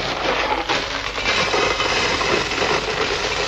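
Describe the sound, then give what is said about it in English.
A box of gravel is shaken for tape-recorded sound effects, giving a dense, continuous granular rattle and hiss that stays fairly even for about three seconds. “What have we got here? A box of gravel.”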